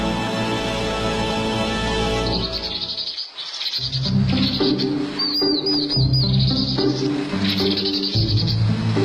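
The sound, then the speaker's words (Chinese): A vinous-throated parrotbill calls in a few short bursts of high, thin, rapid chirping over a dense, steady background. “我的名字叫棕头鸦雀”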